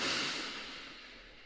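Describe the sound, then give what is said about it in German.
A deep breath in and out, heard as a soft, airy hiss that starts at its fullest and slowly fades away, faint and without any talking. “Nachdem du die Augen geschlossen hast, nimm als erstes einen tiefen Atemzug.”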